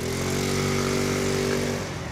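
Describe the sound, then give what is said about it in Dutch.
A Peugeot Viva City petrol moped engine runs with a steady, buzzing drone, even and loud throughout and easing slightly at the very end. “Wat voor brommer is dit? Dit is een Peugeot Viva City.”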